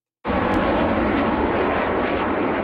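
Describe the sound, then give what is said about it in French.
A CT-114 Tutor jet trainer from the 1960s roars overhead, its loud, broad engine noise starting abruptly and holding steady with no break and no voices. “Ce bruit des CT-114 Tutor, les Canadiens ne l'entendront plus après la saison 2026.”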